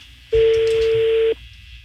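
One steady ringback tone from a telephone call being dialled to the same person, a single unbroken note lasting about one second, alone with no voices.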